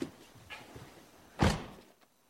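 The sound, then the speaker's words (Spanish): A car door is pulled shut with a single loud, heavy thunk that dies away quickly, after a few soft rustles and low shuffling sounds. “¿Podría cerrar la puerta?”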